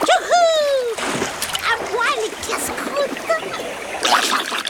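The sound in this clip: A piranha dropped back into river water makes a lively splash. Watery splashing and stirring continue through the short clip.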